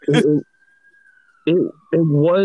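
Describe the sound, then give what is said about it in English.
An ambulance siren sounds as one sustained high tone that glides slowly downward across the whole stretch, running under and between bursts of speech. “See, look, here comes the ambulance right now.”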